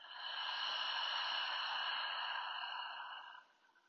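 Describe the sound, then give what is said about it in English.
A deep breath during a guided relaxation exercise comes as one sustained, soft airy rush lasting a few seconds before tapering off, with no talking. “Take a deep breath in through your nose and a full exhale out your mouth.”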